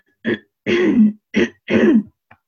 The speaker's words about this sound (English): So now I think I got my throat clear.